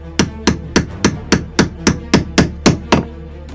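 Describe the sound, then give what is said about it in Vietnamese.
Sledgehammers pound wooden stakes into the ground in eleven sharp, evenly spaced blows. Each strike is a loud, hard crack in a steady rhythm, and no voices are heard. “Mấy tiếng búa nện chát chúa vang lên, cọc gỗ cắm xuyên xuống đất hết nửa thân cây cọc”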